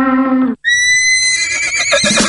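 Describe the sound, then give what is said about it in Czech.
A horse neighing: a loud whinny that opens with a lower, buzzy tone, breaks off briefly, then turns into a high, shrill, sustained neigh that fades into a rougher, breathy finish. “Máte rádi koně?”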